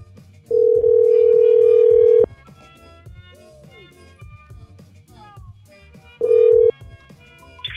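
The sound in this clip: A phone call rings out with a steady ringback tone: one long tone, then a second shorter one after a pause, with faint voices in the background.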